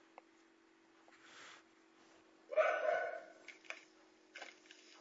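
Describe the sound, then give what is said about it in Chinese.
A dog barks faintly during an online class, giving one main bark near the middle followed by a few fainter short yelps over a steady low hum. “听到你们的狗叫声了？”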